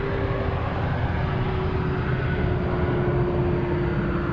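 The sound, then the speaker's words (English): Airplanes flying over make a steady, even engine roar with a low, constant hum running through it. The drone holds at a moderate level for the whole stretch, with no voices. “It's almost 2 o'clock, and these planes are still flying over.”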